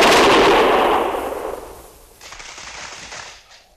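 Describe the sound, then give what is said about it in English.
A volley of gunfire fired on command: one loud, sharp blast that fades into a long rumbling decay, followed by a second, fainter burst. “Prepare to fire! Ready? Fire!”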